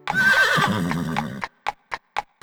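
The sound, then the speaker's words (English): Horse hooves clip-clop after a long, wavering whinny. Five sharp, hollow clops follow at a steady, even pace. “Just let your hooves go clippity-clop.”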